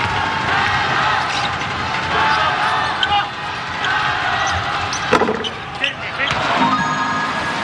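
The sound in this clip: A basketball bounces a few times around free throws at a game, the dull thuds half-buried in a constant roar of crowd noise while a voice talks.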